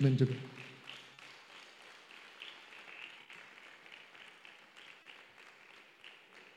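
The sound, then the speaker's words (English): Faint, steady clapping from a church audience fills most of the stretch after a brief low voice at the start, a soft, dense patter that holds at an even level. “Can you clap your hands? I appreciate the Lord.”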